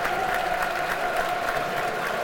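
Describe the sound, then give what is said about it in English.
Dense, steady applause from a stadium crowd as a substituted football player leaves the pitch, a loud unbroken wash of clapping with no pauses throughout. “The crowd's applauding him.”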